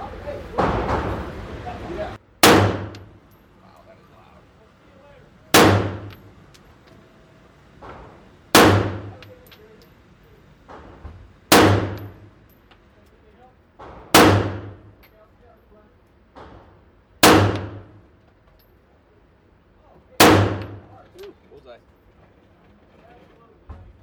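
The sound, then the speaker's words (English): Seven sharp gunshots from a Glock 17 pistol at a gun range, evenly spaced about three seconds apart. Each is a loud, abrupt crack with a short decaying tail. “This right here is our Glock 17. Okay. Because I haven't fired this. Okay. And this is my first time really shooting, so. Okay. Now we're hot, baby.”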